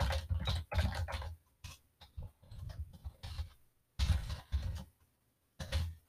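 Fingers type on a computer keyboard in irregular bursts of soft clicking and tapping, broken by short pauses between flurries of keystrokes.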